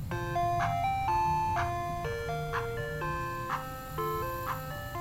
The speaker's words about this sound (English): Wow, completely ignored me. I guess, I don't know, is it a kids-only policy for ice cream trucks?